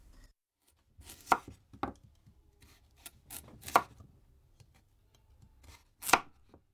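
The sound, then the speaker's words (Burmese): Knife slicing peeled red onions and potatoes into thick rings: a few crisp, sharp cuts at irregular intervals, separated by quiet gaps with soft rustling. “အခုနောက်ဆုံးမွန်လာဥနီနဲ့အာလူးတွေကိုအခွန်ခွာပြီးတော့1စင်တီမီတာအထူးအကွင်းလိုက်လှိပါမယ”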